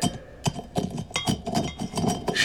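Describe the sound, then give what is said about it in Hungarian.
Something is crushed and pounded in a stone mortar, giving many sharp, clinking strikes in an uneven rhythm, with short pauses between bursts of blows. “Tegyétek a kőmosár. Törjétek meg.”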